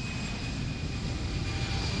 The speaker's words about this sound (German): Die Boeing 737 hat inzwischen vom Washington National Airport abgehoben.